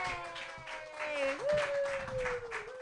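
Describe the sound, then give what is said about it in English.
Audience at an open-mic comedy night applauds its host, a steady, fairly faint patter of clapping with a sustained tone beneath that glides upward partway through. “Give it up for your host”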